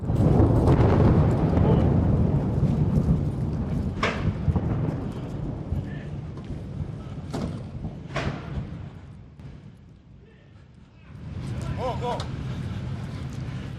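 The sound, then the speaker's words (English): Incoming artillery shelling explodes in Kharkiv amid burning buildings: a few sharp, booming bursts ring out over heavy, continuous rumbling noise, with voices mixed into the commotion. “Suddenly, there's more incoming shelling. We make a run for it.”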